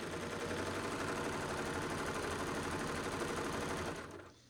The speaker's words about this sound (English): I'm going to go to a three thread narrow and I'm going to sew out my stitch until there's no more purple thread.